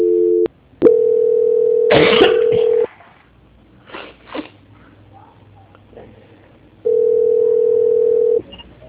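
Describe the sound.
A steady telephone line tone during a call transfer. A brief burst of tone is followed by two long, flat, loud stretches on the same pitch, separated by a quieter gap with scattered noises.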